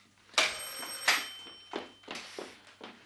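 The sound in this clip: A telephone bell ringing at the start of a call: several rattling ring bursts in a steady rhythm, the first two loudest and the later ones somewhat softer.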